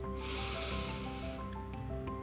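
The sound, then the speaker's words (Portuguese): A deep, slow inhalation filling the lungs and belly, a breathy hiss lasting about a second and a half before easing off, with soft sustained tones beneath it. “Mais uma vez, inspire profundamente, enchendo os seus pulmões e a barriga de ar.”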